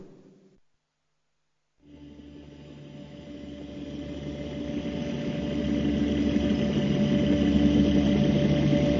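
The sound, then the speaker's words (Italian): An engine revving as the accelerator is pressed on a snowy slope, following skiers downhill; after a brief silence a low, droning hum starts abruptly and swells steadily louder. “Premo l'acceleratore e incomincio a muovermi con assoluta scioltezza.”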